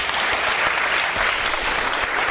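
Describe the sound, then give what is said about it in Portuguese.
Audience applause at a live poetry and samba gathering: a dense, even round of clapping that continues without a break. “Daniel Bernardo, gente, uma salva de palmas.”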